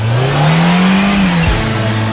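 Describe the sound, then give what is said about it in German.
A car engine revs hard, its drone rising slowly in pitch, then dropping abruptly near the end before settling into a steady, lower hum. The sound is loud and continuous, with no voices. “Jetzt nochmals Gas geben.”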